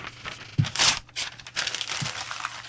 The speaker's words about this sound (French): Je déchire.